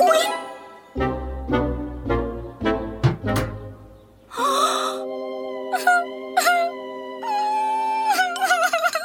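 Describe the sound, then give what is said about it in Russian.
A woman cries and wails loudly, sobbing in strong, separate bursts before breaking into longer drawn-out wails. “Эй, ты чего ревешь? А? Потому что я потолстела.”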